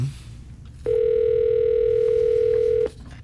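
Telephone ringing during a radio contest call to a prize winner: one loud, steady ring tone lasting about two seconds, starting and stopping abruptly over a faint background hum.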